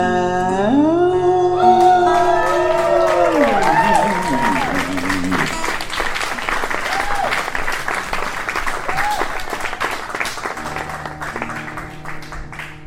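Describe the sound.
Crowd applause at a live show in Texas: dense, steady clapping that fills the whole clip, with music ringing over the first few seconds before the clapping carries on alone and tapers slightly.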